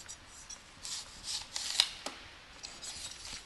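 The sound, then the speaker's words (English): Faint scraping strokes of a sharp knife cutting a honeydew melon, quartering the fruit and cutting out its seeds. A few quiet, brief rasping cuts with no talk. “And you just want to quarter the honeydew and cut the seeds up.”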